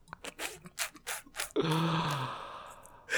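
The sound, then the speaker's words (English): Heavy panting comes as a quick, uneven run of breathy puffs, then one longer, louder drawn-out breath with a faint low voiced tone. “Just heavy panting.”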